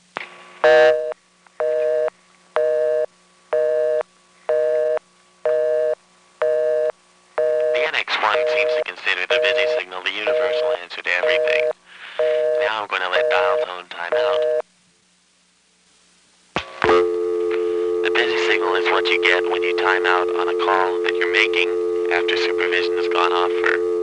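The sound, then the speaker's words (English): Telephone switch tones on a line: an interrupted reorder tone pulses in regular on-off bursts, then a steady tone runs under busier clicking, cuts to brief silence at a hook flash, and a continuous dial tone returns. “might have noticed that while the other NX1 was dialing the first digit, you hear a reorder in the background. Strange phenomenon, but apparently on the first selector, while digits are being dialed, there's a reorder. Now I'm going to flash my hook.”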